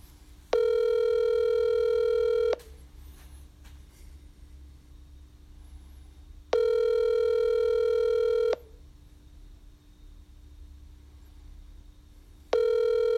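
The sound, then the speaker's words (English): A phone call rings out, waiting for pickup, in a garage with cars going by: two long, steady ringback tones about two seconds each, separated by gaps of low traffic rumble, then a third ring begins. “Come on, pick up. Pick up.”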